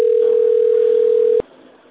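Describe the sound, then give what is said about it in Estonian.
A telephone ringback tone sounds while calling the sales department of the company Allfresh, a steady single-pitched hum holding for about one and a half seconds before cutting off abruptly to faint line hiss. “See on juba viies kord, kui ma helistan neile.”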